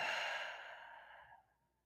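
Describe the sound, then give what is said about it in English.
A slow, deep breath during a guided meditation, heard as a soft airy rush of air that gradually fades out. Quiet, with no talking. “Taking a deep inhale in through the nose and exhale through the mouth.”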